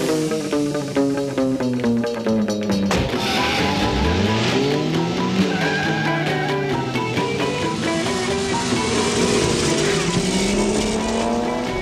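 A moped engine revs and whines loudly as it rides away in a chase, a continuous motor drone whose pitch rises and falls several times.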